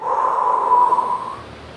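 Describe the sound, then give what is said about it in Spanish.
A deep breath let out during a guided breathing exercise, a long, steady, airy exhale lasting over a second before fading, heard alone without talk. “Respiren hondo.”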